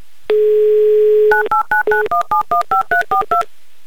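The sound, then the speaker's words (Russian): A phone number is dialed on a touch-tone telephone: a steady dial tone holds for about a second, then eleven short keypad beeps follow in a quick, even run. “и для этого набираю ваш номер.”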